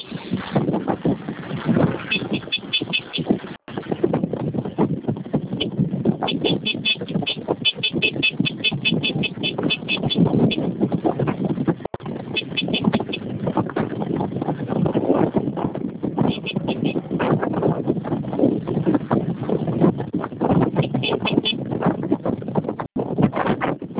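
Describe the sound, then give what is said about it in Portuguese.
Street traffic around a motorcycle being ridden, a continuous rough rumble of road and engine noise with small dips, steady throughout. “Minutinho só que eu tô andando na moto.”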